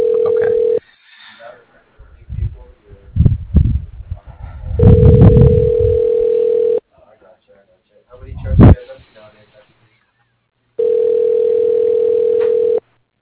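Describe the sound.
Telephone ringback tone heard on a call being transferred to voicemail: three long, steady electronic tones separated by pauses, with brief voice sounds in the gaps.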